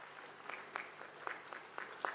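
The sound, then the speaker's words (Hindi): Sparse, faint handclaps welcoming artists at a Hindi-language spiritual gathering, a handful of separate sharp claps scattered unevenly over a quiet background rather than a full ovation. “जोरदार तालियों से अपना स्वागत करें।”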